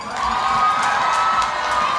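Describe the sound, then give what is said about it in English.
An audience cheers loudly as names are called out at an event, a dense, steady roar of shouting voices that holds without a break for the whole two seconds. “Big applause for Kana Sakamoto.”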